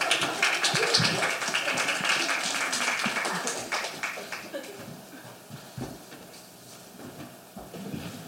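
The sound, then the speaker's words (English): Applause from the audience at a small open-mic night, a dense patter of many hand claps that is loudest at the start and slowly thins and fades, with scattered claps near the end. “Everyone give that another hand.”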